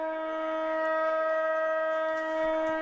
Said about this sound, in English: And that's the siren.